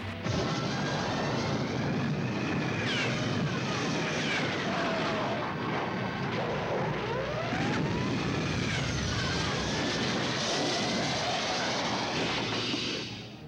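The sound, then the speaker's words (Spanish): A cartoon flying saucer takes off with a loud, steady roar and swooping, whistling tones that sweep up and down. It holds at full volume throughout and fades slightly at the very end. “Platillo volador para Saturno, Neptuno, Júpiter, Venus, la estrella del perro y Marte. Despega por el andén 5.”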